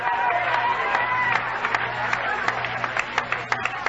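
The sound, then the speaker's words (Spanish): An audience applauding during an evangelical church service, a full burst of clapping with a tonal hum under its start that gradually thins into scattered, distinct individual claps toward the end. “¿Cuántos pueden darle un aplauso, Señor?”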